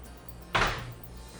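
A heavy window leaf, a roughly 120 kg esquadria, is pushed with one finger after its handle is released, giving a single soft thud that rumbles briefly and then fades.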